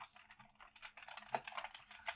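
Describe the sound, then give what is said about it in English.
Typing on a computer keyboard: a quick, irregular run of light key clicks, faint and heard alone. “I will type that one out for you so you know how to spell it.”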